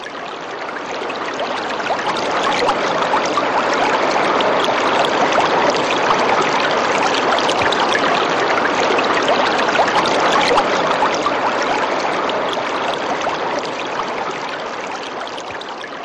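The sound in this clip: Flowing stream water rushing and splashing over stones, a dense, even hiss and roar that swells slightly at the start, holds steadily for the whole stretch and eases a little at the end, with no voices.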